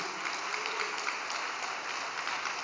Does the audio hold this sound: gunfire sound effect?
no